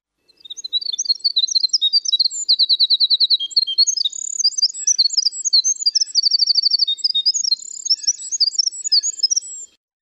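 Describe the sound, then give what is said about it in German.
A winter wren sings one long, very high, rapid song of tumbling notes and fast buzzy trills, bright and clear on its own, before stopping abruptly. “Ich fange jetzt hier mal an mit dem Winterzaunkönig, der hier abgebildet ist. Der ist überwiegend in Nordamerika verbreitet.”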